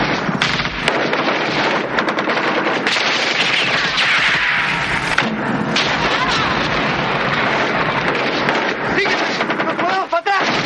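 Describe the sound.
Explosions and gunfire during a military battle in a war film. Dense, loud crackling bursts and rapid fire continue without a break, and voices are heard over the din.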